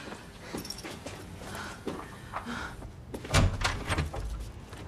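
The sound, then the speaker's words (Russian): A door opening in a foreign film scene: a few soft clunks and scrapes, then a louder thump of the door toward the end, with no talk. “Открывается дверь.”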